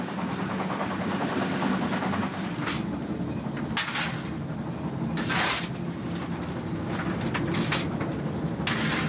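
Continuous rumble and clatter of a class 50 steam locomotive, No. 50 3648, hauling a special train on the Zwickau–Schwarzenberg line. A few brief hissing bursts of steam rise over the steady noise.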